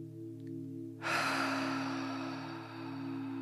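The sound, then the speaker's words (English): A slow, deep breath drawn from the belly up into the chest during a relaxation exercise: after a second of near silence over a low steady hum, a soft, airy, breathy rush begins and continues to the end. “So let's take about 5 more breaths like this. So drawing from the belly up into the chest.”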